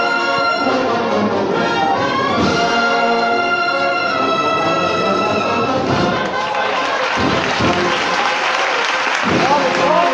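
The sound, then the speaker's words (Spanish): Street crowd applauding a Holy Week procession float of Jesús Despojado in Jaén: dense, continuous clapping with crowd noise and voices mixed in, steady and loud throughout. “Pues así ha roto de frente el paso y así levanta los aplausos en esta calle maestra el misterio de Jesús Despojado.”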